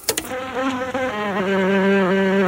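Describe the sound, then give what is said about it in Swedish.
A large bumblebee queen buzzes. After a few sharp bursts at the start, it settles into a loud, steady, low droning hum rich in overtones, with no voices. “Det är alltså den 2 augusti 1975 och jag har fått en stor humlehona.”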